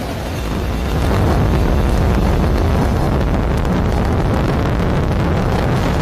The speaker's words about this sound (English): Great shot there from on top of the rocket looking down, and then now tracking up, looking at those 27 Merlin engines lifting the Falcon Heavy and Roman Space Telescope off into space.